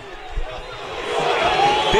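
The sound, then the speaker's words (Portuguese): Crowd booing as a São Paulo versus Atlético Paranaense football match ends in defeat in Bragança Paulista. The broad roar builds steadily louder, with a commentator talking over it. “Atenção às vaias.”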